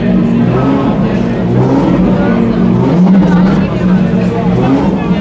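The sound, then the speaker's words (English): A Porsche 911 RSR race car engine revving through a heat cycle while its systems are tested, producing a loud, steady, raw drone whose pitch swells and eases a few times, with voices murmuring underneath. “They're revving up one of these cars right now. This is the 911 RSR.”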